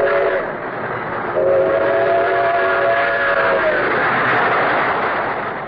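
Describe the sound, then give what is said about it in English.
A train rushes along rails toward a big-city terminal with a steady, dense rumbling roar. Sustained whistle-like tones sound over it for several seconds, and the noise stays loud throughout without speech. “As a bullet seeks its target, shining rails in every part of our great country are aimed at Grand Central Station”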